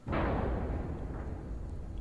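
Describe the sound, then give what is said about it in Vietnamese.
A car crashing into something after failing to brake in time: one heavy low boom at the start, then a sustained rumbling roar that slowly tapers off, with no voices. “Ầm một tiếng, Trung dường như không kịp phanh xe lại. Vụ va chạm làm cho đầu gã đập vào vô lăng đau đớn.”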